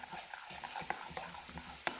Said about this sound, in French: Et je vais mélanger le tout. Je récupère ma petite cuillère à café que j'avais dans la main, ça suffit largement.